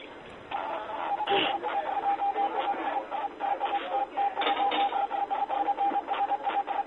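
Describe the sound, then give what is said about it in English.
Morse code beeping: a steady, mid-pitched tone keyed in quick short and long pulses, running almost continuously over a noisy, radio-like hiss. “What the hell is that? It's Morse code.”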